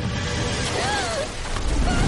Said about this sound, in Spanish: La arrastra una ola. Gatea por la orilla.